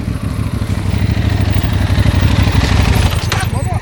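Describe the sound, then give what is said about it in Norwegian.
Motorcycle engines on a road, turning and heading back, a loud steady low rumble with a regular pulsing throb that holds throughout, with voices talking over it. “så var det to motorsykler. De har kjørt feil vei, for de skulle egentlig vært på denne sida her. Og nå har de snudd og kommer tilbake.”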